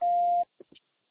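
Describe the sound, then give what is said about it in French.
Answering machine beep before recording a message: a single loud, steady beep lasting about half a second, followed by two faint short noises and then quiet. “C'est à vous après le bip.”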